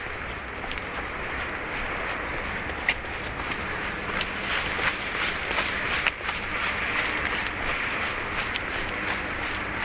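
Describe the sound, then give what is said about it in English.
A runner in a noisy tracksuit jogs by, footsteps thudding in a quick, steady, regular rhythm over a constant rushing background noise. “Here comes a runner behind me.”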